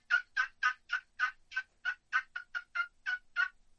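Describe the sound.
A hen turkey yelp imitated on a wooden box call: a series of 13 short, evenly spaced, raspy notes with a steady rhythm, loud and clear against silence.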